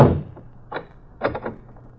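A door is shut and locked to shut someone in: a heavy thud, then a few sharp clicks and taps from the lock mechanism.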